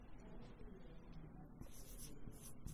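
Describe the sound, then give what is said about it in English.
A marker writing notes on a dry erase board: faint rubbing, then several short, bright squeaky strokes in the second half, all very quiet. “let me just go to the board here. And put a few notes up here on the dry erase.”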